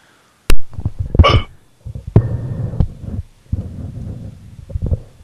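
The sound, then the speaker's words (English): Hiccups come as a series of abrupt, sharp jolts at uneven intervals, loud and clear, with a low murmuring hum filling the gaps between them. “Somebody got hiccups there?”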